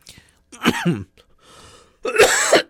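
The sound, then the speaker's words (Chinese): Coughing from a person with a cold: a couple of harsh, throaty bursts separated by a softer breathy hiss, with no talk over them. “不好意思，今天因为这个感冒，所以有时候会咳嗽”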